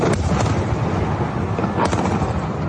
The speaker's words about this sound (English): is from airstrikes that are falling across Damascus.